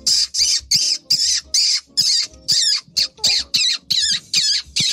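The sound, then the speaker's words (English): Pine marten calling when threatened or seeking a mate: a rapid, evenly spaced series of many harsh, screechy squawks, each a short rasping burst, loud and alone with no voices. “pine martens make a surprisingly eerie, unanimal-like noise. Sounds like this.”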